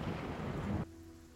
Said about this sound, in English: Thunder.